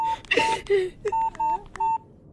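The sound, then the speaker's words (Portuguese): Touch-tone beeps of a telephone number being dialed, a quick series of short, steady electronic tones separated by brief gaps, moderately loud and alone. “já vou ligar para o pai”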